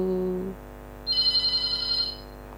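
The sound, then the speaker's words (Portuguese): A telephone rings with an incoming call to a radio phone-in, one roughly second-long burst of rapid, high-pitched warbling pulses following a brief lower tone at the start. “Mas acho que temos mais uma chamada, então vamos deixar as mensagens em stand-by por enquanto.”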